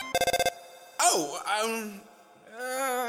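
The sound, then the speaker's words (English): A cell phone rings in the video game Undertale with a quick burst of about six bright electronic beeps. After a short gap, a voice starts speaking. “I'm sorry, human, that was my phone ringing. That would be her calling right now.”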